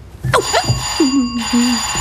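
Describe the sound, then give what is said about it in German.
A doorbell rings at a house front door, giving a steady, bright electric ring that holds through the whole stretch, with sliding tonal sounds over it. “Wer ist denn das jetzt? Klingeling, die Klingel.”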